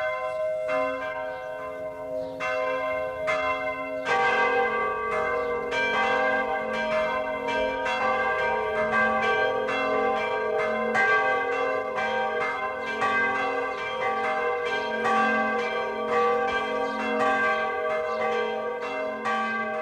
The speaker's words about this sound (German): Das Mittagsläuten kommt heute von der katholischen Wallfahrtskirche St. Marien in Pertoltshofen im vorderen Oberpfälzer Wald.